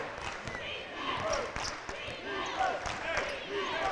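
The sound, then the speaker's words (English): Basketball dribbled on the half court during a professional game: a few soft thuds of the ball bouncing sit beneath a man's voice and a murmuring crowd. “Fox dribbling in the half court, near sideline, now moves to the top”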